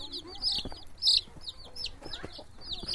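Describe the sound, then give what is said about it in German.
Ten yellow chicks peck and cheep around the legs of visiting women, giving many quick, shrill high peeps in a busy, uneven stream with one louder burst. “Zehn gelbe Küken picken zwischen den Beinen der Frauen, die zu Besuch gekommen sind.”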